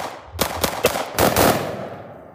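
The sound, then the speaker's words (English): Gunfire: a single pistol shot, then two musket shots, then a dense rolling volley of musketry. The cracks are loud and sharp, and the final burst runs together before fading out. “A pistol is shot, then 2 muskets fire, and then a roll of musketry.”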